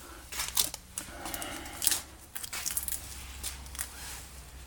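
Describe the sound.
Duct tape is pulled from a brand-new roll, giving raspy, crackling rips in uneven bursts. The strongest rips come early and midway, and lighter crackles trail off toward the end.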